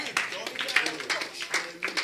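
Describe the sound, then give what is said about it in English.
Church audience clapping in a steady rhythm, sharp regular claps repeating several times a second, mixed with voices singing or calling out during worship. “Clap for the Lord Jesus.”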